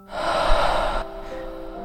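A single deep exhale during a guided breathing exercise, a loud, airy rush of breath lasting about a second, then dropping to quiet background.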